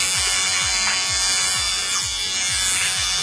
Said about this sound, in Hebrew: מכונת תספורת, זה לא מכונת גילוח.